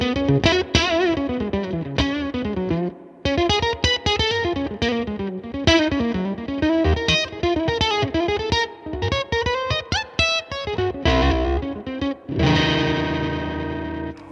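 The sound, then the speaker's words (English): Electric guitar through a Green Ringer-style ring modulator, a small knobless unit plugged straight into the jack, giving a bright, octave-like metallic ring without fuzz. A fast single-note riff of many quick notes gives way to a denser sustained passage at the end. “It's really a ring modulation, but it sounds like an Octavia without the fuzz. So here's what it sounds like.”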